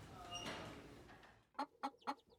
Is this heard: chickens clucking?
yes